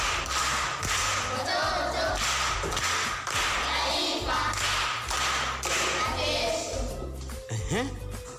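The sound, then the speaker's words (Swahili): Applause for a pupil at a primary school quiz: rhythmic clapping in steady, evenly spaced bursts that carries on throughout, with voices underneath. “Makofi kwa shangazi.”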